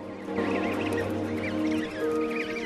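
Goose chicks give many high, thin peeping calls as they waddle along beside an adult, the chirps scattered over a sustained low drone.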